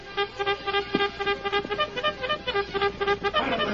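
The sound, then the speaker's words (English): A bugle sounds a signal call: a run of clear, brassy notes played in a quick, rhythmic pattern, loud and with no voices. “the Lone Ranger and Tonto heard the signal they had been waiting for, the clear notes of a bugle.”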